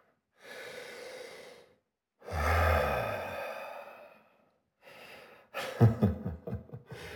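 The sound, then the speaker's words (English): Deep breaths: a long inhale, then a longer and heavier exhale, then a short breath and a final stretch of shaky, stuttering breathing, with no talking. “Come on. Take a deep breath.”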